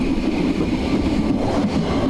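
A train slows as it travels through snowdrifts, a dense, steady rumble with faint rhythmic clatter, heard alone with no voices.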